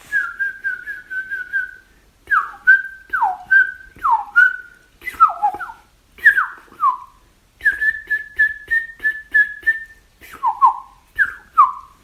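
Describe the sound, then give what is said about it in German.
A song thrush sings high in a tree in the evening, whistling clear phrases that change often, each repeated several times in quick succession, loud and alone with short pauses between groups. “Und dann jetzt neuerdings wieder die Singdrossel, die lange Zeit relativ still war, auch weit oben. Vor allem am Abend kommt sie deutlich raus, wenn der Pirol weniger zu hören ist, mit ihrem.”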